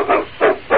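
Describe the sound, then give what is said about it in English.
A dog barks three times in quick succession, each bark a short, mid-pitched burst with brief gaps between, fairly loud and heard alone. “Look at that animal. That's no wolf. That's a dog.”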